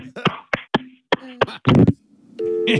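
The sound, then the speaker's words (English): A telephone is hung up when a man's backside bumps into it: a few sharp knocks and thumps, then a loud rattling clatter of the handset, followed by a steady electronic line tone. “Your ass meat hung up the phone. Shit. His ass meat actually hit the phone and hung it up.”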